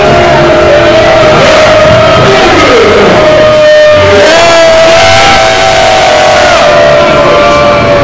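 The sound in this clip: Wrestling crowd booing a wrestler, a loud sustained roar of many voices with a drawn-out booing tone and scattered shouts, filling the whole clip without a break.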